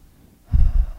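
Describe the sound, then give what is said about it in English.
A deep breath drawn in during a guided affirmation exercise, a short, low, breathy rush of about half a second that starts abruptly after quiet, with no talk. “Take a deep breath in.”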